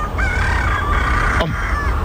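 Roosters crow at dawn in long, strained calls that stand out over a steady rushing background. A brief sharp click falls between the crows.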